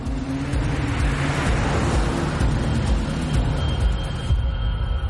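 Engine roar of a taxi chasing two people on foot, a continuous low, rumbling drone that holds fairly steady throughout.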